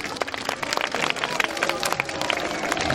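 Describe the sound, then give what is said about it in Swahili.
An audience of children clapping in praise of Jesus at a church gathering. Many uneven, sharp claps overlap at a lively pace, with crowd noise underneath and no steady shared rhythm. “Hebu mpige makofi Yesu.”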